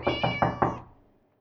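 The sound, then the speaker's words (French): A cat meows four times in quick succession: short, bright, harmonic calls at an even rhythm, with the last one trailing off into quiet. “Ma, coucou, dit Ronron le chat. Il fait si bon chez toi.”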